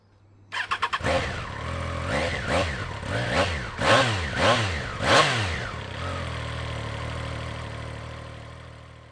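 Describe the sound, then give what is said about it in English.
A Triumph Triple motorcycle engine fires with a few quick pulses, then is blipped through many throttle revs, each rising and falling sharply in pitch, before settling into a steady idle. “he's quite playful with the throttle there. He is, yeah. So it's a Triumph Triple, yeah. by the sounds of it.”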